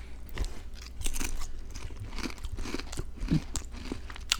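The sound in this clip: Salt and vinegar chips being eaten produce a continuous run of crisp crunches and chewing. Brittle cracks come in an uneven rhythm, with no talking over them.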